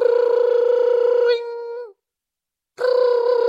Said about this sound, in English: tring. And I got to tell you, I didn't want to go answer the phone.